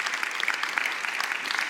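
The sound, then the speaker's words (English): A church audience bursts into dense, even applause after a sermon point: many overlapping claps form a steady patter that holds at a moderate level throughout. “I think there's a good place to clap right now in Jesus' name.”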